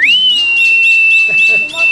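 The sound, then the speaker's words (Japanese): A single mouth whistle that sweeps up quickly at the start, then holds a steady, high, clear note for about two seconds, with soft talking underneath. “口笛も3回吹くんだけど”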